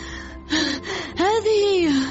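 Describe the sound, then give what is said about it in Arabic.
Out-of-breath panting from someone who has just run up: a few voiced, gasping breaths, each rising and falling in pitch, heard alone without words. “أدهم يركض نحونا وبيده ما بدا كأنه رسالة. فحين وصل عندنا بدأ يلهث وهو يحاول التحدث.”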